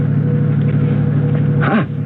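A car is driving, with a continuous, low engine rumble that stays steady and loud throughout and has no voices over it.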